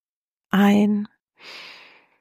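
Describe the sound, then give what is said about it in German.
A voiced, sighing breath followed by a softer, airy exhale through the mouth. It is two separate breaths with a short pause between them, part of a guided breathing exercise. “Ein und durch den Mund ausatmen.”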